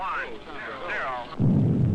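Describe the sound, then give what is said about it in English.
A rocket blast-off sound effect in a space-mission radio drama with poor transmission. A short spoken line gives way abruptly to a loud, steady, low roaring rumble that holds to the end. “I believe that was the blast off.”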